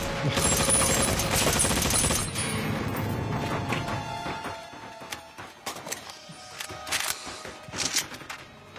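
Airsoft gunfire from a watched video: a dense, rattling burst of rapid shots for about four seconds, then scattered sharper pops and cracks.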